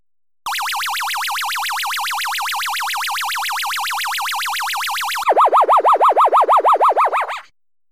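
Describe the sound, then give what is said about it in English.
An electronic warbling tone from the Lunar Rescue arcade game, Universal colour version emulated on MAME, wobbles steadily for about five seconds, then drops lower into a run of rapid pulsing beeps before cutting off. “Lunar Rescue, all used the same classic hardware. They're both black and white and colour versions of the game. The Universal one is in colour. In all the flyers and on MAME, at least, it's in colour. And it sounds just like this.”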